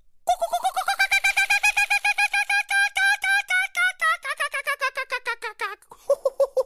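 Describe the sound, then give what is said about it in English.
A human voice imitates the laughing call of the Australian kookaburra: a long, loud run of many quick hooting notes in a steady rhythm, breaking into a few separate notes at the end. “That's a pretty good imitation of the distinct laughing call of the Australian kookaburra.”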